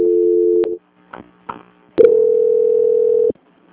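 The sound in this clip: Telephone line tones play during a call transfer: a steady hum cut off by a click, a couple of faint clicks, then a longer, louder steady tone that stops abruptly.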